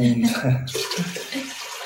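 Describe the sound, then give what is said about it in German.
Water pours into a pot being filled for paella, a brief rushing splash with a voice talking over it. “Und ja, wir müssen mit Wasser dreimal mehr auffüllen”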